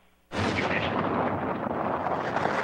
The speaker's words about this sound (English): From California, almost 5,000 miles away, the U.S. Air Force tests its intercontinental missiles by firing them at the Marshall Islands.